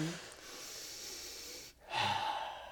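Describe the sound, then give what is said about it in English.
A deep cleansing breath: a long, airy inhale, a brief pause, then a fuller breathy exhale, soft and close. “Take a breath. Take a cleansing breath.”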